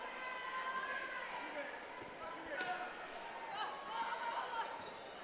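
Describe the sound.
A basketball is dribbled during a basketball game. Faint, soft bounces sit beneath steady crowd noise and murmuring voices throughout.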